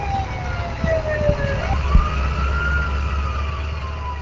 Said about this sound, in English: So whenever you're ready to get the truck started, we'll actually turn the siren on, and then go ahead.